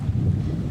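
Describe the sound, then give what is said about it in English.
Wind blowing over a lake with trees nearby, heard as a brief, steady, low buffeting rumble against the microphone, with no distinct leaf rustle. “There's the lake, the wind, and the trees.”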